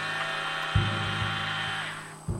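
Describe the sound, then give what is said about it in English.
An electric screwdriver runs very close to a hidden listening device, giving a steady, bright motor whine with layered harmonics that winds down near the end, with a couple of low thumps from handling underneath. “we heard an electric screwdriver that we felt was very close to our bug”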